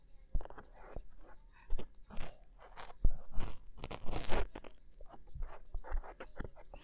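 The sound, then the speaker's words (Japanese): Cotton swab scratching and rubbing inside an ear during ear cleaning: many irregular crackly, crunchy scrapes and soft rustles, some sharper clicks standing out, with no voice. “今日使うのは綿棒。綿棒はふわふわな、かき心地がすごく癒されるよね。じゃあ、入れていくよ。”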